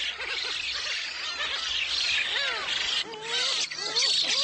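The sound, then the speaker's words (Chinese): Black-faced spoonbill chicks squabble noisily on an island near Yeonpyeong in May, a constant high, wheezy hissing chatter broken by short warbling and squeaky calls, steady and moderately loud throughout. “这里是延平岛附近的古籍岛，时间是五月份。新生雏鸟们吵得不可开交，”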